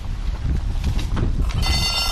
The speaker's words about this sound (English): One lap to go. Everybody gets a bell.